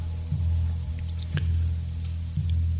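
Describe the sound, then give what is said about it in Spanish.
Water being drunk in three wet, squishy gulps spaced about a second apart, each a short swallow over a steady low hum. “para poder beber un poco de agua”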